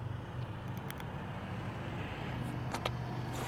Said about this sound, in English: there's a lady driving with their window down